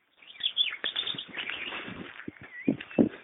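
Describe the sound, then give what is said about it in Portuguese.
A small bird sings in a rural setting. It gives a quick, irregular run of faint high chirps and twitters, with a few louder notes near the end. “Canta, passarinho.”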